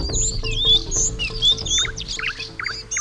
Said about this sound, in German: Wie schön sie zwitschern, die Vögel.